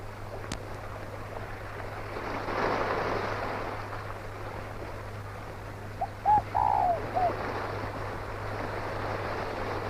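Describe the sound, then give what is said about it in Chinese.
Soft cooing of a bird, a brief cluster of a few rounded, hooting notes over a faint, steady low hum and background hiss. “玉鸟又叫了”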